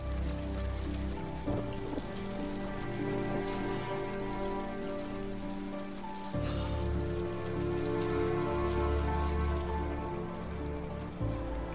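Heavy rain pours down in a steady downpour onto a balcony, a dense, continuous hiss of drops on the surface that holds at an even, loud level throughout with no voices.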